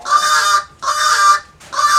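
Agitated birds honk and squawk near a food spot, giving three loud, harsh, buzzy calls, each lasting under a second and separated by short pauses, with no talk.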